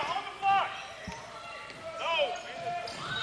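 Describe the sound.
A basketball is dribbled on court during a Spartans game, with repeated rhythmic bounces under a steady stream of talk.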